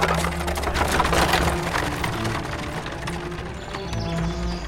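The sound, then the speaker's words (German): Hooves clip-clop steadily as a horse-drawn carriage arrives. The clatter is continuous and moderately loud over a constant rumble, with no speech. “Ich lasse nach einer Kutsche schicken. Und dann sollten wir uns umgehend auf den Weg machen.”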